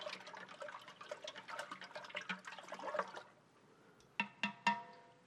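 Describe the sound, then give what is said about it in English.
Water swirls and sloshes in a steady, rustling wash as salt is stirred in, then it quiets and three bright, ringing clinks follow in quick succession. “I put it in water, and then I stir”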